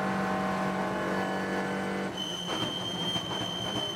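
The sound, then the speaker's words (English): Onboard engine sound of a race car lapping a track: a loud, sustained whine that shifts tone abruptly about halfway through, then carries on steadily. “Unfortunately, they haven't released a trailer for it, so they haven't helped us out. But here's a quick onboard of the track.”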